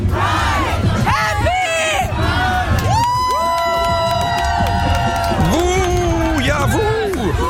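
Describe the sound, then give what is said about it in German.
A crowd partying on a radio station's parade truck at a Pride event cheers, whoops and shouts in a loud, dense and unbroken roar of many voices. “So klang es gestern ungefähr den ganzen Tag auf dem 1Live-Truck beim CSD.”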